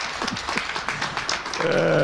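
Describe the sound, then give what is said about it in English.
A studio audience on a Chicago talk show briefly applauds an arriving guest with a short burst of steady hand clapping. “Oh, everybody, Dave Glowacz, give him a hand.”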